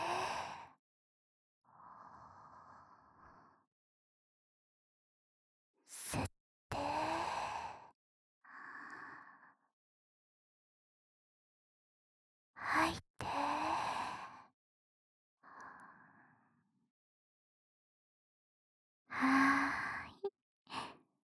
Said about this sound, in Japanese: ほーら、深呼吸よ。吸って、吐いて。